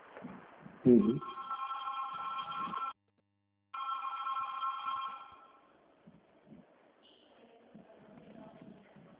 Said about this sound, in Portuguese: Ah, pensei que tinha caído, que tá tocando, tá entrando outra ligação na linha.